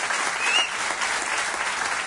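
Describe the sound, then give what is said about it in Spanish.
Audience applause at the close of a live event: dense, steady clapping from many hands that stays even and unbroken throughout. “Os pido un aplauso.”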